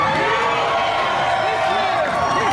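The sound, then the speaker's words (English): An audience at a stadium event boos someone on stage, a dense, unbroken crowd roar that holds at a steady level throughout. “So some notable boos there in the audience.”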